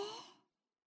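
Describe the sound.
A single soft, breathy exhale like a sigh comes from a guided breathing exercise. It is faint and fades out within half a second, leaving silence.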